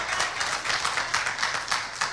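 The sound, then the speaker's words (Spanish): Church audience applauding, a soft, rhythmic clapping in a steady, regular beat of repeated bursts that keeps an even pace and stays faint throughout. “dele fuerte ese aplauso al Señor, porque es para Él.”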